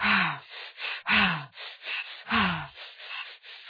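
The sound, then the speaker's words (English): Deep breathing done as a breath ladder, with loud, airy breaths in a steady rhythm. Three strong breaths stand out, separated by shorter, softer puffs. “you can just start taking very deep breaths, or maybe do breath ladders where you do increase the amount of inhale.”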